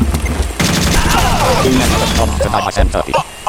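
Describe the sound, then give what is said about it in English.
AK rifle gunfire in a video game crackles out in many rapid, overlapping shots, forming dense, loud bursts that continue almost without a break. “See, within a few shots of the AK, I killed him.”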